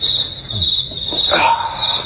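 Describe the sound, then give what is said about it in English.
Crickets chirp as a comic sound effect. The faint chirping sits under and between bits of speech-like sound through the short stretch. “Driven away by the crickets.”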